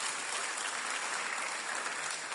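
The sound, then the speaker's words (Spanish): An audience applauds two volunteers at a stage game, with dense, steady clapping throughout and no voices. “Aplauso para los dos valientes.”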